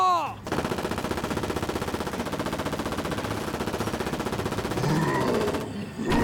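Rapid automatic gunfire opening on command, a steady stream of evenly spaced shots lasting about five seconds, with a short vocal sound at the start.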